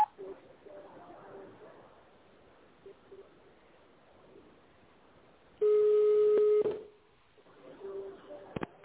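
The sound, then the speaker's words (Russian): A single sustained telephone keypad tone, dialing an extension on a pharmaceutical company's automated phone line, rings loud and steady for about a second between stretches of faint line hiss. “Наберите внутренний номер сотрудника или оставайтесь на линии.”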